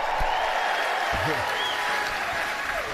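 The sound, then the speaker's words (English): An audience cheers and applauds at a live event. The noise is dense and sustained, steady in loudness from start to finish. “If you believe in facts and journalism, make some noise. Yeah. And up high, if you believe in the Reverend Al Sharpton, make some noise.”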